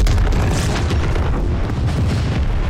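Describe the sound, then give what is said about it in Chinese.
A tungsten mine is blown up, making a loud, continuous explosive roar with heavy low rumble that fills the whole clip without any voices. “是盘古山，不好，矿都炸了！”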